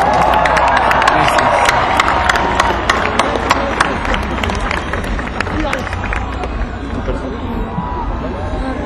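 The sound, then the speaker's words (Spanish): A large rock concert crowd applauds and cheers, with dense rapid clapping and sharp individual claps over a continuous roar of voices, loud and sustained throughout. “Aplausos para ti, Raza, no para nosotros.”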